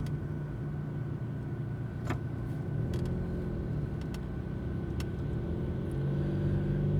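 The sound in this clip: Interior sound of a car driving: a steady, low engine and road rumble that continues through the whole clip with little change, with a few faint, sharp clicks over it.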